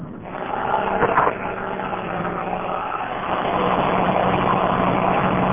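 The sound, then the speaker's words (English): A car driving over a rough, snowy road with something like speed bumps. A steady low engine drone and road rumble run throughout, with a brief louder jolt near the start and the noise swelling slightly toward the end. “We're driving over an outrageous road that has something like speed bumps on it.”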